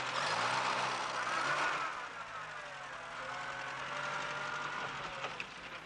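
A car engine as the vehicle reverses and then drives off, a steady mid-pitched hum and whine that is loudest at first and eases slightly, heard alone with no talk.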